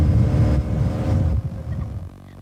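A boat on the Danube roars with a deep, loud engine rumble that weakens partway through and continues at a lower level with a lighter churning texture.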